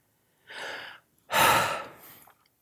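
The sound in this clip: A person takes a deep breath in two airy phases: a softer rush of about half a second, then a louder, longer one. The whole sound is quiet, with no talking.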